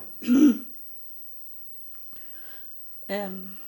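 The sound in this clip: Throat clearing, two short rough bursts separated by near silence, the second with a more voiced, tonal rasp.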